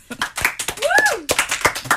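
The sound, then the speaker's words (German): A small audience applauds with sparse, irregular claps, while a voice gives a whooping cheer partway through that rises and then falls in pitch. “Einmal Applaus für Andi.”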